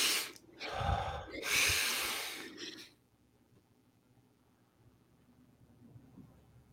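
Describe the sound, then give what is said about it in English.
A deep breath drawn in during a guided breathing exercise: a loud, airy inhale in two surges lasting about three seconds, then near silence as the breath is held. “And let's take that deep breath together.”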